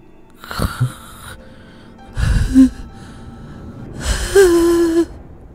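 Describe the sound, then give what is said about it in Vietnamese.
An old man's wheezing, rasping breaths, a hissing gasp like an asthmatic's with the mouth gaping open, come in three breathy bursts, the last drawn out with a strained, whining tone. “Lão rít như là người bị hen suyễn, mồm của lão há hốc cả ra.”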